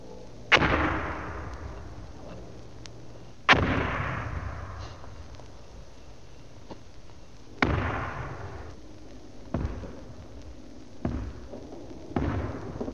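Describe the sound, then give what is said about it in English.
Live hand grenades explode one after another during military training. Six sharp, loud booms come at uneven intervals, and each one trails off into a fading rumble. “After you've learned on the practice dummy grenades, there's nothing like tossing a few live ones to make you feel like John Wayne.”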